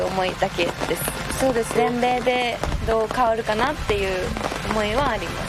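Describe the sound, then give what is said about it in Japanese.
Raindrops patter on a tent roof outside a clubhouse at a women's golf tournament, a soft continuous crackle beneath a woman speaking Japanese throughout. “ほんのパチパチパチパチこうテントを雨粒が、打ってる音が聞こえてきたと思うんですけれども”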